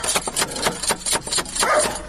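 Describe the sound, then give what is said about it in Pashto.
Knocking on a house door: a quick series of sharp, fairly loud wooden raps with brief gaps between them. “ته ودرې چې دا دروازه ور وټکوم.”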